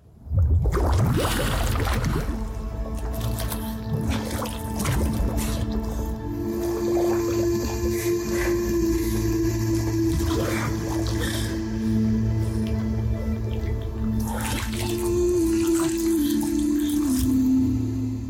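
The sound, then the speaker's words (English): Thick, continuous squelching and sloshing as people swim and struggle in a pool of oil, dense and unbroken throughout, over sustained low tonal drones. “It shows a group of people swimming in a pool of oil and struggling to get out.”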